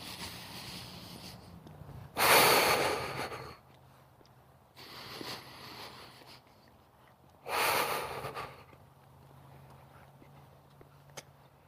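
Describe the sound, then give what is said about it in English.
Deep, loud breaths from a meditation routine, drawn in through the nose and out through the mouth: three long, airy, noisy breath sounds separated by quiet gaps, the middle one softer, over a faint steady hum. “Deep, loud breaths. In through the nose, out through the mouth.”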